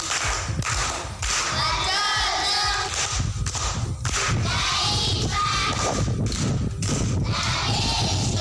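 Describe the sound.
Pupils at Chingurubira primary school applaud a classmate, loud, dense clapping mixed with cheering and shouting voices that stays strong for several seconds.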